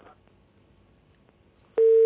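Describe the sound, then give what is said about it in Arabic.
A steady, loud telephone tone starts abruptly near the end of a near-silent stretch after a phone call is disconnected. “انقطع اتصال محمود.”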